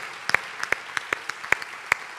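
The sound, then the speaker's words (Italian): Sparse applause from a church audience praising the Lord during a service: a handful of separate, sharp claps at an uneven pace, fairly quiet, with short gaps of silence between them. “Il Signore è buono? Allora facciamo un applauso al Signore.”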